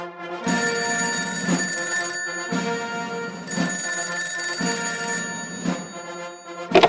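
A telephone rings with a bright, rapidly trilling bell in two long bursts separated by a short pause, loud and clear with no talk.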